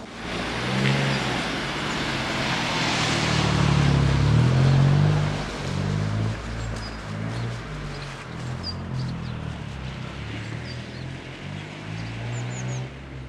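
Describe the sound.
A car drives past on a road beside someone walking close to the roadway. Engine and tyre noise swells to a loud peak, then fades into a lower, steady traffic rumble.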